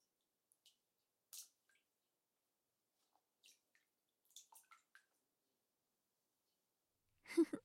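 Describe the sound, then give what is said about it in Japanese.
Faint little water drips and sloshes as a hand is placed into a bowl of hot water during a nail-care session. A few soft wet touches are scattered through near silence, with a slightly fuller splash at the end. “では、こちらのお湯の中に手を入れていただいて、このまま少しだけお待ちくださいね。”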